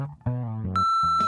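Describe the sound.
An answering machine sounds its beep before a voicemail message. A brief electronic tonal lead-in is followed by a steady, high-pitched beep that holds for about half a second.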